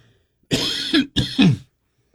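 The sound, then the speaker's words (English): Two harsh coughs from a person in quick succession. Each is a short, rough burst with a voiced tail, fairly loud and alone with no talk around them. “excuse me, had a cough.”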